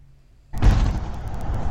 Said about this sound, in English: Here are some amateur footage from Kiev of a Russian military aircraft being shot down.